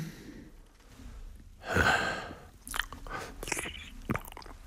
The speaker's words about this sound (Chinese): 父亲大人，请喝茶。母亲，请喝茶。